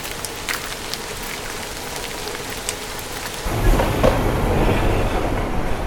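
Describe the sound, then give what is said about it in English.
A tram trundles down a track toward a town: a steady hiss of running noise, joined partway through by a heavier, louder low rumble of the streetcar on the rails. “A tram trundles down a track toward the town.”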